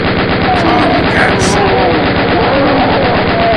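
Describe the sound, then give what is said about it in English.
Sustained rapid gunfire from a fully loaded minigun, a heavy rotary weapon normally vehicle-mounted, fired inside a cave. It is a dense, unbroken roar of shots, loud and continuous for the whole stretch with no pauses. “Suddenly, he found a fully loaded, fully functioning minigun in the cave, in a puddle.”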